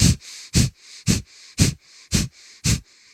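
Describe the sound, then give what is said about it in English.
Short, sharp nasal breaths demonstrating a piston-like breathing rhythm for jumping: a steady, regular series of quick puffs through the nose, about two per second, with softer airflow between them. “So what you're going to do is kind of just use a little nose breath that kind of sounds like this.”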